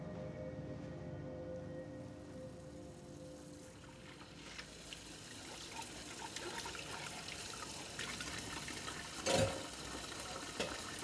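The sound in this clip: Dishes being washed by hand in water, with faint sloshing and trickling and one short, louder splash near the end.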